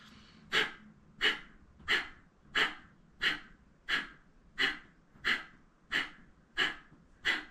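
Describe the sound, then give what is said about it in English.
Forceful exhales through the nose in a Kundalini yoga breathing kriya: eleven sharp, breathy puffs in a steady rhythm about two-thirds of a second apart, each with a quiet gap and no voices. “Pushing out the nose like you're trying to blow something out with your nose. Only focused on the exhale. Don't worry about taking breath in.”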